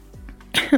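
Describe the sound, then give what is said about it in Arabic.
A person with a winter cold coughs in a short, sharp double burst, harsh and breathy, the second hack slightly louder than the first, after a moment of low hum. “دخلت شتاء وكحة بقى ودور البرد المنتشر. عفوا.”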